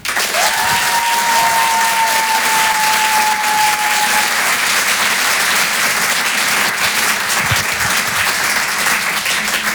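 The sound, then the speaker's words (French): An audience gives a comedian a dense, steady round of applause and cheers as he walks on stage, and one sharp sustained whistle rises above the clapping early on. “Je vous demande de l'encourager. Faites du bruit, s'il vous plaît, pour son tout premier passage sur Rire et Chanson, Simon Pinto.”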